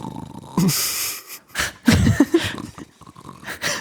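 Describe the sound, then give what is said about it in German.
A voice imitates snoring and sleeping sounds: a few breathy, wheezing inhales and rough, snorting exhales in uneven bursts, loud and close. “sie schlafen, hast du Schnarchgeräusche, Schlafgeräusche?”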